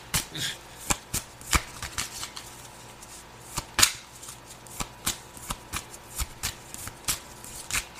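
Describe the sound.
A deck of cards is shuffled with many quiet, crisp flicks and riffles in a steady, uneven rhythm. Sharper taps stand out now and then, and no voices are heard.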